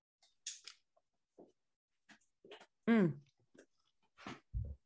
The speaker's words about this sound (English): Just keep eating.